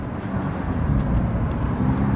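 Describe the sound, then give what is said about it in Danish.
Steady low road and engine rumble from a car driving at a little over 40 km/h, a continuous even drone with no distinct events and no voices. “Kører I hurtigt, eller hvad er det, der foregår? Altså, lige nu kører vi sådan lidt over 40 km i timen.”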